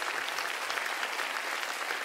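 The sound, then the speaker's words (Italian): Applause from an audience as people are called forward, a dense, steady patter of many hands clapping for the whole stretch, even in loudness and without any voice standing out. “Giusto e Luca, un applauso, venite qua, un applauso”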